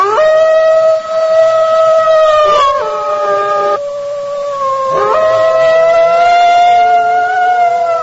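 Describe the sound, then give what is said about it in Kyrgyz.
Wolves howl in the Alay mountains, long, loud and wavering calls with sliding pitch that follow one another without pause. “Алай жергесине күгүм талаш жеткенде кашабаңдын улуганы кадимкидей жаңырып турду.”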